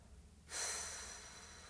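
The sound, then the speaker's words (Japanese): A slow exhale during a relaxation breathing exercise: after half a second of quiet, a soft, steady airy whoosh begins and tapers gently over more than a second. “最後もう一回吸って新しい空気で体を満たして吐きます”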